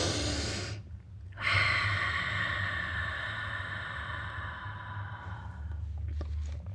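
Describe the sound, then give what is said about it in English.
A slow, deep breath taken for relaxation during a calming exercise: one long, airy draw of air that swells loud and steady, then tapers gently toward the end, with no talk over it. “just take a few deep breaths.”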